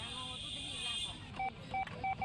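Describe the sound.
Telephone keypad tones dialing a long-distance call: four short, clear beeps at uneven intervals over a steady background hiss and hum.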